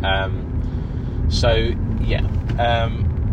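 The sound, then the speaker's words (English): Car interior rumble on the drive up to Knebworth House, a steady low engine and road drone running throughout beneath continuous speech. “We're driving up now, just going past the new housing estate there, which looks quite interesting. It's quite a nice drive up to Nebworth House,”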